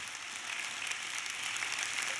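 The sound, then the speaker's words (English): Faint applause as a church audience welcomes a speaker at High Desert Church, a steady wash of clapping that holds at the same low level throughout, with no voices over it. “I know if you clap loud enough, we can hear you. I want you to give Kevin a great High Desert Church welcome.”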